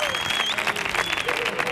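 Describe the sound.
Audience applause fills a live show in Andalusia: dense, steady clapping from a large, enthusiastic crowd, loud and continuous with no break throughout.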